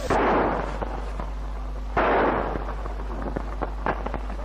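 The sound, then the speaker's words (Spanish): Gunshots from a .45 pistol fired by a police officer during street unrest in Córdoba with tear gas falling. Two loud, sharp reports about two seconds apart stand out, each followed by a decaying rumble, with several smaller cracks between them. “Observamos a un policía que tira con una pistola 45.”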